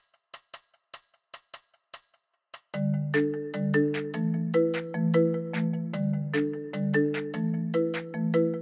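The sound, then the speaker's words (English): A virtual marimba MIDI preset in Logic plays a bouncy, repeating melodic pattern of mellow struck notes, preceded by several sharp, dry tapping clicks. “So what you're hearing right there is a marimba sound. It is the virtual marimba instrument MIDI preset in Logic.”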